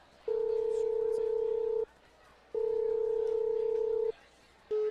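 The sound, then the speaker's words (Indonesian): Telephone ringback tones sound while a call rings unanswered: two long, steady mid-pitched beeps about one and a half seconds each, separated by a pause, then the start of a third, clear and alone over faint background hiss. “Wait ya, aku coba telepon.”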